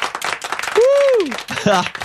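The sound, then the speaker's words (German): Audience applause for a guest comedian, a dense, steady wash of many hands clapping that carries on throughout, with voices audible over it. “Einmal Applaus für Till Reiners.”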